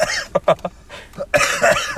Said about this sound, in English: We're coughing.